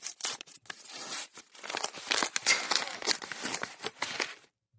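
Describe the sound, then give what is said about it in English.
A paper envelope being torn open: a faint run of rough ripping and crinkling bursts over about four seconds, uneven in rhythm, stopping abruptly before a short silence. “Let's tear into the envelope.”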